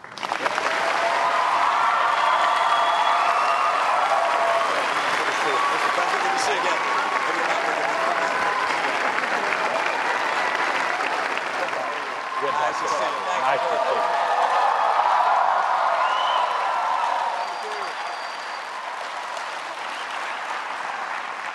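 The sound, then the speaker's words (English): Audience applause at a presidential debate welcoming Barack Obama and Mitt Romney, a dense, steady wash of clapping that holds for about twenty seconds before easing slightly near the end. “The audience has taken a vow of silence, no applause, no reaction of any kind, except right now when we welcome President Barack Obama and Governor Mitt Romney.”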